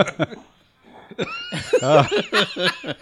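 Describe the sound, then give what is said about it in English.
A beagle making hacking, coughing noises after eating grubs from the yard, a few short harsh bursts mixed with human voices talking. “That would be my beagle. He's been eating grubs out in the yard, and that's what he does when he eats grubs.”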